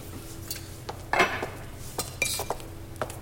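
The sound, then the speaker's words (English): Handmade wooden bowls and spoons of poplar and maple being handled, giving light knocks and clinks at irregular intervals, with one fuller clatter near the middle; fairly quiet, with no talk. “Oh, wooden bowls. I assume you carve those yourself. And the spoons. Poplar and maple.”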